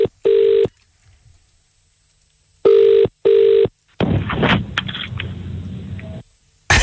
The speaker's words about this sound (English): Dial him up, please.